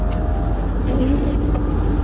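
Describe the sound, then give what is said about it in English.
A car's engine runs as the driver gets in to head home: a steady, low rumbling hum at moderate level, even and unbroken throughout. “Just got in the car. I'm getting ready to drive home.”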